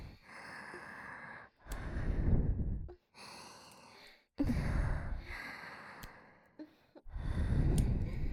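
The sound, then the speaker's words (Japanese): Heavy breathing close to the ear: a slow series of breaths, softer drawn breaths alternating with three louder, rushing exhales, each lasting about a second. No voice is heard. “耳元で呼吸音も聞かせてあげる。”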